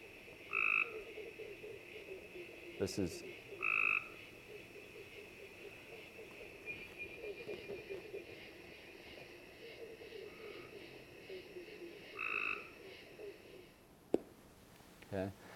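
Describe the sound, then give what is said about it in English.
Gray tree frog trills, slow pulsed croaking calls that come in a few short bursts, quiet against a steady hiss of background noise. “It's much slower with the gray tree frog.”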